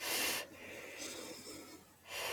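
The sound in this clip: A person breathes in deeply during a guided family-focused meditation. Airy, rushing breath noise is loud at the start, drops to a faint hiss, then swells again at the end.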